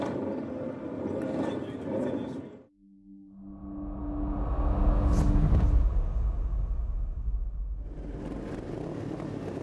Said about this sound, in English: Away from the line, it's Dominic Herbertson who leads us off on the Kawasaki Z650. This is twin cylinder bikes up to 700cc.